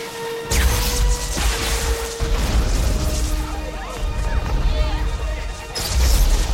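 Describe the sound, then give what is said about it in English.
A car ploughs through a fence into an electricity substation: a few loud, heavy crashing and smashing impacts break out, with rumbling, clattering debris in between. “They dive out, rolling on the tarmac as the car plows through a fence into an electricity substation.”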